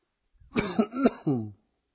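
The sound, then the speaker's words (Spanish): A few short, rough coughs from a speaker giving a Bible lesson while still troubled by a slight cough. They come as a quick cluster of throaty bursts with a voiced edge, and no speech comes between them. “Perdón. Todavía sigo con un poquito tos.”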